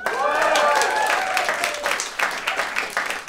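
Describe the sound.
A debate audience applauding and cheering to vote on whether government should limit online speech, starting with a loud burst with whoops, then thinning into scattered individual claps.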